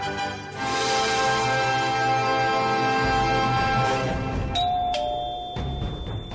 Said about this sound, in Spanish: tocó el timbre de la casa. Se abrió la puerta y la invitaron a pasar.